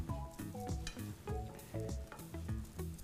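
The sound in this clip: Food sizzles and fries in a pan while being cooked and turned so it browns, a continuous crackling hiss with small pops running steadily through the whole stretch.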